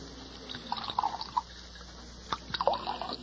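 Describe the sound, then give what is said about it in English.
A drink is poured from a bottle into glasses at a bar, heard as two short bursts of gurgling, bubbling liquid separated by a quiet pause, with light trickles and drips. “Set out a couple of glasses in that bottle you've got your hand on. We'll pour our own. Yes. Yeah, I'll pour yours, Doc.”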